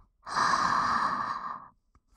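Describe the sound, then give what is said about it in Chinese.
A single long breath, a drawn-out sigh-like exhale lasting about a second and a half, soft and heard alone. “呼吸，吸气，呼吸，吸气，”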